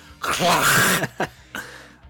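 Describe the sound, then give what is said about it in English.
A voice imitates an alien name with a harsh, phlegmy throat-clearing rasp: one long guttural burst, then two short hacking clears. “Just put a phlegm noise, and that you're about as close as you can get to pronouncing that, I think.”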